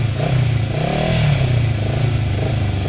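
Motorcycle engine revving after the rider kick-starts the bike again when it stalls partway along the road, a loud, steady, low rumble with wavering pitch throughout and a light mechanical clatter.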